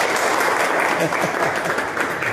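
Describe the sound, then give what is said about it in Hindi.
An audience at a school quiz competition gives dense, loud applause that holds steady throughout as a continuous wash of overlapping claps. “आप सब एक बार जोरदार तालियां बजाएं।”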